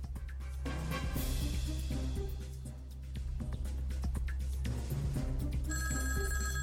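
An incoming call rings a telephone during a radio call-in program. The ringing carries on steadily throughout over a dense, noisy background.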